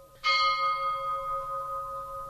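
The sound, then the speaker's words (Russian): A church bell tolls for a death with a single struck note, a sudden clang that settles into a long, humming tone, sustained and slowly fading with no voices over it. “Что это? Колокол. Колокол! Так звонят, когда кто-нибудь умер.”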